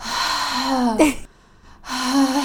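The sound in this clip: A voice imitates very heavy breathing, two long, loud, drawn-out groaning breaths separated by a brief quiet pause.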